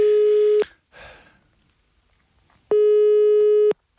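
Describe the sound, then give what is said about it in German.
A telephone busy tone sounds when calling the boss: two long, loud, steady beeps separated by a gap, with faint, brief sounds in between. “Lass uns doch mal unseren Chef anrufen”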